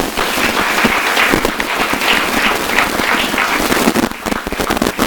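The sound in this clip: Applause welcomes a speaker at a bookstore author event: dense, steady clapping from many hands fills the whole clip at an even level, thinning slightly near the end.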